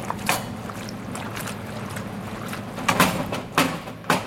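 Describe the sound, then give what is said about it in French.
Pasta dropped into a pan of tomato sauce, followed by a ladle of pasta cooking water, gives a few brief, splashy bursts over a low, steady background. “Je les dépose directement dans la poêle où j'ai déjà ma sauce tomate. Et puis, aggiungo un peu. Et je rajoute une louche d'eau de cuisson des pâtes.”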